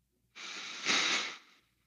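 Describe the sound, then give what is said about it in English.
A deep breath in and out during a guided relaxation exercise with eyes closed: one long airy breath, a softer inhale running straight into a slightly louder, fuller exhale, heard alone against quiet. “So nice deep breath in”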